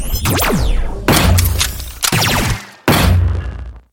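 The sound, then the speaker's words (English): Four loud gunshots ring out at roughly even intervals in a dramatized scene, each a sharp blast followed by a ringing, fading tail. “You almost shot me!”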